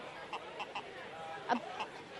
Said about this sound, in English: What kind of chicken is it? It's the breed. It's a Bargrock.